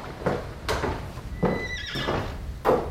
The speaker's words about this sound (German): Es sind doch nur Lady Catherine und ihre Tochter in ihrer Kutsche.